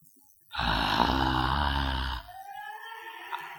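A person groans while praying: one long, loud, low-pitched voiced groan that holds for under two seconds, then drops to quieter voiced murmuring.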